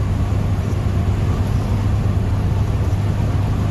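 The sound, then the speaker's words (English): Steady rumble of a car driving down a country road. Road and engine noise hold at an even level throughout, with no talk. “We're driving down the road, and I don't know, we just passed another place.”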